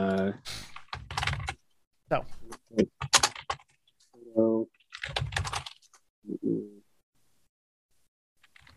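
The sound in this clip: Keyboard typing during a tabletop role-playing game session, heard as bursts of quick clicking keystrokes broken up by people talking.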